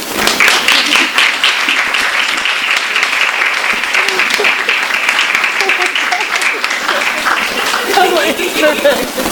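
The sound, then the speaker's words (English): An audience applauds to welcome two guests at an evening author event, a dense, steady wash of clapping that stays loud and even for several seconds. “Please join me in giving them a warm welcome.”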